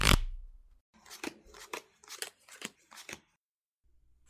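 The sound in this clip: Playing cards being shuffled and dealt for a game of five-card stud: a sharp riffling burst at the start, then a run of crisp, evenly spaced flicks, followed by quiet.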